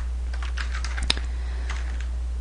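A password is typed on a computer keyboard as a run of soft, quick key clicks over a steady low electrical hum. One sharper click stands out near the middle.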